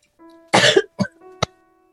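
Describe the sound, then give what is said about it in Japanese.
Coughing from a person on a video call, three coughs in a row: a long harsh first one, then two shorter, sharper ones, over a faint steady hum. “いきなりですがごめんなさい、とっても咳がしたくて咳をさせてください”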